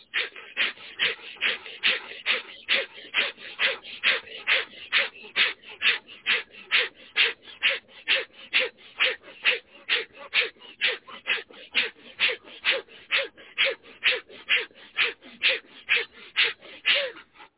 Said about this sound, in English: 3, 2, 1, breathe fast through your nose. Find a rhythm and then push on that rhythm.